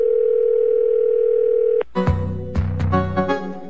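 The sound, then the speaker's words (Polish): A steady, loud telephone dial tone holds for nearly two seconds, then cuts off into sharp clicks and short tonal bursts as a number is dialled. “Wykręca numer. W telefonicznym skrócie.”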